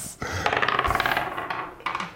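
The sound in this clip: A die rolling across a surface: a rapid run of small bright clatters that settles, then a few separate later taps.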